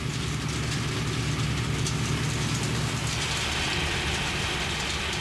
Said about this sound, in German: Ist der Korntank des Mähdreschers voll, wird das Getreide umgefüllt auf einen Anhänger.